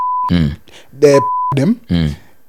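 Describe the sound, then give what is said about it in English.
Two steady mid-pitched censor beeps bleeping out a name, one short at the start and one slightly longer in the middle, each cutting into loud stretches of talk. “beep out the name”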